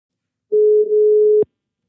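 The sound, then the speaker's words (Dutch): Outgoing-call ringback tone on a phone line: one steady, mid-pitched electronic tone held for about a second, then a sharp click. “Zullen we Martin bellen? We gaan Martin bellen.”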